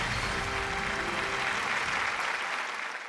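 An audience gives warm applause to welcome a professor to the lectern, a dense, continuous clapping that holds steady and then tapers off toward the end.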